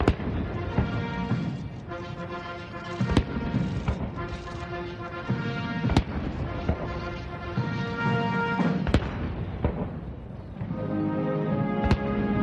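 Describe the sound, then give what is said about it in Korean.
Cannon blasts from a 21-gun artillery salute at an official welcome ceremony: five sharp, loud booms about three seconds apart, sounding over a military band playing a sustained anthem. “약 27분간 진행된 행사는 양국 국가 연주와 21발의 예포 발사, 미국 6회 공군과 해병대 의장대 사열 등의 순서로 진행됐습니다.”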